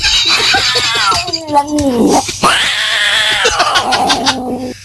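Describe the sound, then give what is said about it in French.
An agitated female cat caterwauling in a continuous stream of strained, wavering yowls, one sliding sharply down in pitch midway before climbing again, loud and without other sounds. “Il a fini par raccrocher quand il a entendu les bruits de chatte.”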